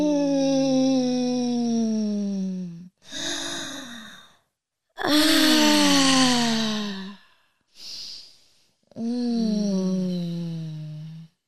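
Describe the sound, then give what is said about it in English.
During a guided meditation, deep breaths alternate with long voiced moans. Three drawn-out moaning exhales each slide downward in pitch, separated by two shorter, breathy inhales. “just take a deep breath. And then let it out and just breathe and moan.”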